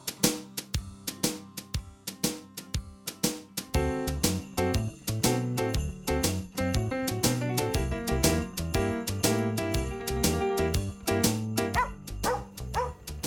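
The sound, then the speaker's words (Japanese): Dog barks set against a rhythmic musical backing, many short yips and woofs falling on steady beats throughout. “ワンコの声に乗せてお天気お伝えします。”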